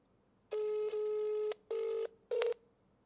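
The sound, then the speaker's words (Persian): Telephone ringing on an outgoing call: a buzzy, steady ringback tone in a few bursts of uneven length separated by short silences, with no voices over it. “دو تا زنگ میخوره.”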